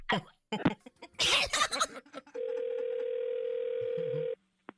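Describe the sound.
A telephone dial tone sounds after a call disconnects: a single steady, unbroken tone for about two seconds, preceded by a few coughs and throat clearing.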